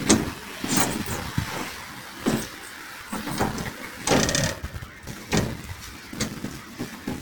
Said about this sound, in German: Über das Fußpedal wird die Klappe zum Einwurf geöffnet. Die Hände bleiben sauber.